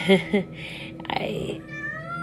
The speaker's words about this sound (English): literally the cat has been sitting next to me this entire time. And then as soon as I started talking, he wanted to say hi.